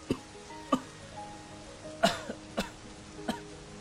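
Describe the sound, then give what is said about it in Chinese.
A man coughs several times with a hand on his chest, hoarse, muffled bursts spaced irregularly, the loudest near the middle, with no talking. “顾元白捂着胸口咳嗽了几声，把门关上，闷声咳着坐了回去。”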